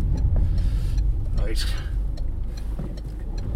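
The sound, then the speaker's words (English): Engine of a Citroen Berlingo van pulling away, a steady low rumble that holds at a fairly even level throughout, with a person talking over it. “That was the sound there, all the Citroen Berlingo racking it up there.”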